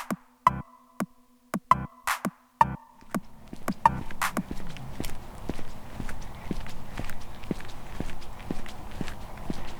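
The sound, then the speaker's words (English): Boots walking on a paved walking and biking path: crisp, separate footsteps at first, then a quicker, steady run of steps over a low background hiss. “It's such a different feeling in my boots to be walking on the paved path, the walking path. The biking path.”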